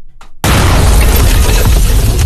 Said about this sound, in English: Thing blew up. It blew up. It blew the hell up. And there was this massive spark, this massive bang.